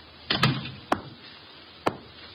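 A door is shut, giving a few sharp wooden knocks and latch clicks that are brief and well separated, with quiet gaps in between.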